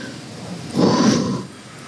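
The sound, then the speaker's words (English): A single deep breath, a soft airy rush of about half a second heard alone against a quiet background. “Take a deep breath.”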